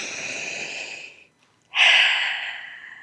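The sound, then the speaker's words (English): A deep breath taken during a guided breathing exercise: a long airy breath, a brief silent pause, then a second, louder breath that slowly fades away. “So let's take a moment to take a deep breath.”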